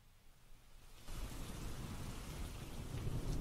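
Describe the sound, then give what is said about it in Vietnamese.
A sudden heavy downpour with thunder hits during a burial at a graveside. A faint hiss gives way after about a second to a broad rumbling roar of rain that stays strong and grows slightly to the end. “Trời đất trở nên âm u, rồi bất thình lình đổ cơn mưa như là bục thác.”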